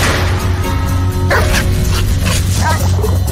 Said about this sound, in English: That's a dog. That's the dog I gave the meatballs to.